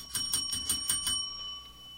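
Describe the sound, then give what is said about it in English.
A small bell rung rapidly in a studio gives about six bright, high metallic dings in just over a second, then a short fading ring. No voices are heard. “Ring the bell”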